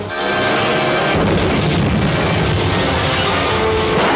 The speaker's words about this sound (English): On target, steady as she goes. Firing ray gun.